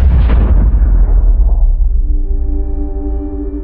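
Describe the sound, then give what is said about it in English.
A missile rocket explodes in a loud, deep, rumbling blast that fills the low end and slowly decays over a few seconds, fading into a steady high ringing tone. “You get there way before this missile reaches its target, and you shell Polymorph with your entire being as this rocket explodes.”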